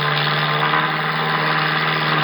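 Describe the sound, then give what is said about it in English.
Steady drone of a crop-dusting plane flying low overhead: a loud, continuous engine hum with a strong low tone and no evident change in pitch. “Looks like a crop-dusting plane to me”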